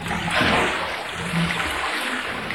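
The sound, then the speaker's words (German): Whey trickling out of cheese moulds, a soft, steady splashing stream of liquid with a brief swell near the start, fairly quiet and without talk. “Während die Molke aus den Käseformen abläuft, schöpft Eva Zweng noch ein Gefäß voll Flüssigkeit aus dem Kessel”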